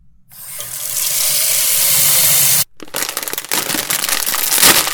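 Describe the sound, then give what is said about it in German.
Tap water runs steadily and loudly for about two seconds while filling up for cooking noodles, then cuts off, followed by irregular crinkling and rustling, like a packet being handled. “Wir kochen jetzt die Nudeln und dann bin ich wieder bei euch.”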